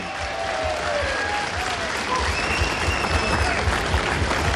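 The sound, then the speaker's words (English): Audience applause welcoming two mouth organ players onto the stage: dense, even clapping runs steadily through the whole clip. “We want to welcome two gentlemen onto the stage now to play a couple of tunes for us. That's John and Pip Murphy. Lads, come out. Give them a big welcome.”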